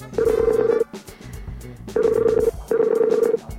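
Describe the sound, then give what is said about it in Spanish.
Ringback tone of an outgoing telephone call: three steady, mid-pitched tone bursts at an even pace, each under a second long, over a busy background. “Ahí se conectó. Oh. Ahí sonó. Ya. Llamar. Estamos llamando a la Mayo.”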